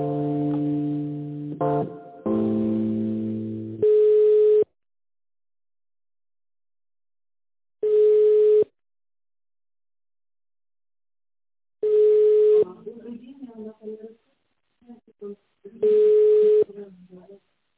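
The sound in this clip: Telephone line tones while a call is transferred: a short burst of mixed electronic tones, then four steady mid-pitched beeps repeating about every four seconds, with a voice murmuring briefly between the later beeps.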